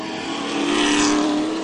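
Race cars roar around a track in a steady engine drone that swells louder midway, then eases slightly, with no talk over it.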